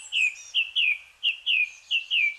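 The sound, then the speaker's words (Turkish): Birds sing in a dawn chorus before sunrise: seven clear, high, downward-slurred chirps repeat in quick, slightly irregular succession, fairly faint and with nothing else audible. “Tüm dünyada kuş severler, doğacılar yarın şafak sökmeden doğadaki en büyük senfonik konseri dinlemeye gidecek. Yarın Uluslararası Şafak Korosu Günü.”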